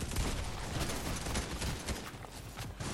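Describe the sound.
Rapid gunfire in a Fortnite video game match, a dense, fairly quiet stream of many overlapping shots with no clear break.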